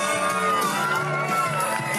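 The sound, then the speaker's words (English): An audience at a San Francisco comedy show cheers and whoops to welcome a performer to the stage, a dense, loud, steady wall of crowd noise with shouts rising over it throughout. “Please welcome my good friend, Joshua Andrews. Give him a big hand.”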